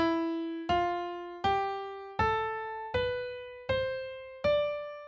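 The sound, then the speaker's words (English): An E Phrygian scale rings out as seven evenly spaced, struck tones that step upward in pitch, each decaying before the next, giving a dark, somewhat foreboding sound. “now you're going to lower the second note, the third note, the sixth note, and the seventh note to get a scale that sounds like this.”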